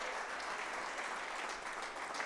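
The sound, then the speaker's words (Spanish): Steady applause from a church audience praising God during an afternoon service, a dense, even wash of clapping held at a constant level throughout, with no voices standing out. “Fuerte ese aplauso a nuestro Dios en esta tarde.”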